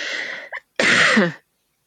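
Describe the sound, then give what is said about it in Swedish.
A person coughs, with a couple of loud, harsh bursts separated by a short pause, then silence. “måste jag bara hosta lite”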